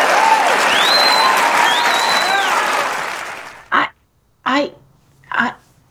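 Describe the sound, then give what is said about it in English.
A standing ovation, with a crowd clapping densely and loudly for about three and a half seconds before the applause thins and fades. A voice then speaks a few short phrases alone. “What? Standing ovation.”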